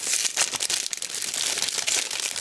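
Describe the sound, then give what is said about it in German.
Crinkly rustling of an aroma-sealed package of 40 tea bags being opened: dense, continuous plastic crackling with irregular sharper crinkles, fairly faint and heard alone with no talk. “Aroma verschweißt, 40 Teebeutel und ich kann nicht anders. Ich muss das jetzt öffnen. Es raschelt sehr, es tut mir leid.”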